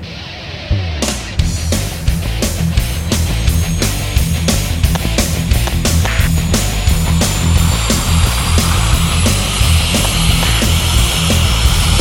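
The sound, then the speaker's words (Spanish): An airplane takes off with a loud, continuous engine roar and a thin high whine that rises in pitch, while a regular rhythmic pulsing runs through the whole passage. “Nave del Rock 001, autorizado despegue.”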